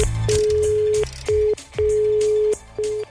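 Telephone tones heard while placing a call: a steady low beep sounding in repeated on-off pulses of uneven length, over a busy background.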